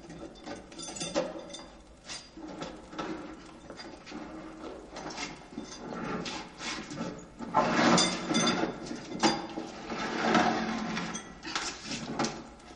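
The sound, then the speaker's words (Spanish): A stuck jail-cell door is forced open with effort, giving off many rattling, creaking mechanical clicks and wooden knocks in uneven bursts that grow louder toward the end, with no voices. “Abre la atorada puerta con dificultad.”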